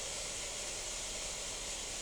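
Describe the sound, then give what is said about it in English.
Ghee boils and sizzles in a pan, a soft, even hiss that stays steady from start to end with no distinct pops, faint and alone. “our own sense of taste, as the ghee boils and the sound of rain”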